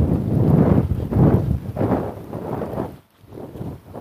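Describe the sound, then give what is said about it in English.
Strong, cold morning wind blowing outdoors during a walk, buffeting the microphone in loud, low rumbling gusts that swell and fade, with a brief lull near the end. “blowing rather strongly this morning. And it's not a warm wind.”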